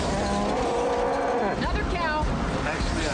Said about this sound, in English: We got cows. Another cow.